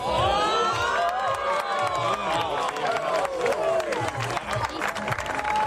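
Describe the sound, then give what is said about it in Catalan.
Cheering and excited shouts from a crowd reacting to a solar eclipse at the Ebre Observatory, with high whoops and children's voices in a loud, sustained clamor that swells and wavers throughout. “Mireu, com que no podem descriure a vegades en paraules el que vivim, escolteu la reacció de la gent.”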